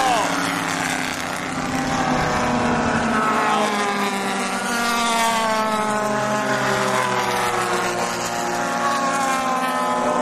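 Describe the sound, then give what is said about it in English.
Porsche race cars roar through a race in a steady, loud engine drone that runs the whole clip, its pitch drifting up and down as they lap. “this is a race. Funny, all the Porsches in the rear there.”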